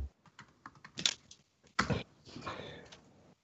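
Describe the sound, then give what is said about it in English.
Keys on a computer keyboard are tapped while typing into a chat during an online tabletop role-playing game. The quiet, irregular clicks are spaced apart at first, then two louder keystrokes, then a denser cluster of soft taps. “I just put some words in chat. If you can see where I just typed.”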